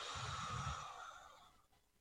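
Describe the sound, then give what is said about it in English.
A deep breath taken slowly, a soft, airy rush of air that holds for about a second and then fades to near silence, faint and alone with no talk. “Take a breath again.”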